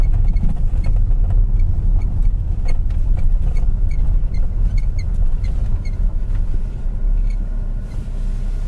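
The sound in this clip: A car drives through roadworks in an area rebuilt everywhere, a steady low engine and road rumble holding level throughout with no voices.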